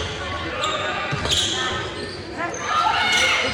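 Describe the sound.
Basketball dribbling on a court during a game in Sandpoint: a few dull bounces under steady crowd noise and voices.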